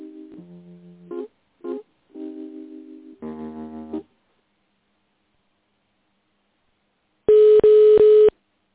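Telephone tones sound while a call is being transferred: a short run of electronic tones, then silence, then a loud, steady buzzing ring tone broken into a few quick pulses.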